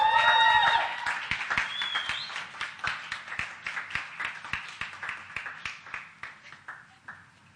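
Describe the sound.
Applause from an audience welcoming a panel speaker. It starts full, then thins into distinct individual claps that grow sparser and fainter, fading out by the end.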